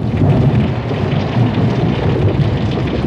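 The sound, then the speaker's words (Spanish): Torrential rain pouring down in a sudden deluge, a loud, unbroken roar of water that stays dense and constant throughout with no voices. “¡El diluvio! Fue cuando de repente llovió tanto que parecía que estuviéramos bajo una catarata.”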